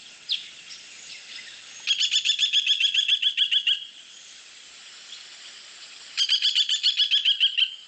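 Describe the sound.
Loud, distinctive call of a bearded woodpecker: one short note, then two long bursts of rapid, high, chattering notes repeated in quick succession, separated by a few seconds of quiet.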